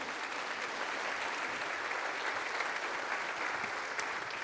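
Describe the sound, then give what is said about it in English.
Steady, full applause from an audience welcoming a guest as she comes up, an even wash of clapping that neither builds nor fades. “Would you please put your hands together? Let's welcome Janie as she comes up here.”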